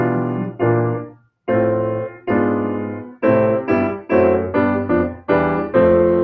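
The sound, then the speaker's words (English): A descending fifth sequence of Western classical harmony exercise plays on an instrument as many sustained, clearly pitched chords. The first chords are slower and separated by a short pause, and later ones follow in a quicker, even rhythm, with no voices. “there's a really difficult exercise in theory of doing a descending fifth sequence. It sounds like this.”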